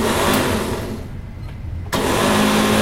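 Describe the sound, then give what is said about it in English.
A Snow Joe snow shovel runs indoors with a steady, buzzing motor whir and strong harmonic hum. The whir sags and thins for a moment, then surges back abruptly to full strength near the end. “there is another handle that you can use to hold the snow shovel to run it, and I'm just going to run it in the house real quick so you can hear what it sounds like.”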